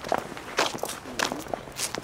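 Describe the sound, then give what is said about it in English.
Footsteps going down stairs in a cemetery garden, a few soft, uneven steps with scuffing between them, fairly quiet and without talk. “let's walk over to his gravesite. Sure, sure. Yeah, we'll go down these stairs and get cut through”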